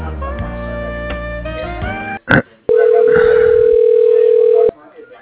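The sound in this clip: A steady electronic telephone tone while a call is transferred to voicemail, holding one even pitch for about two seconds after a voice and a short click, then stopping.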